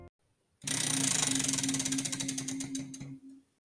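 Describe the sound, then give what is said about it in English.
A spinning prize wheel sets off a dense run of rapid mechanical ticks that starts suddenly, runs steadily, then thins out and slows before stopping. “Guys, it is time to give this Wheel of Ghastly Tales a spin and find out what we're going to be talking about today. So let's get to it. Here we go.”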